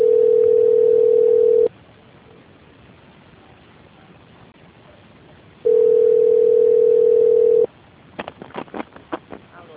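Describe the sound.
Telephone line tone during a call transfer: a loud, steady mid-pitched beep, then a long pause over faint line hiss, then a second identical beep, followed by a voice starting to speak.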